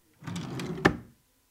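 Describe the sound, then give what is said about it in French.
A drawer slides open with a rough, rumbling scrape that ends in one sharp clunk as it stops, heard alone and briefly. “À l'ouverture des tiroirs”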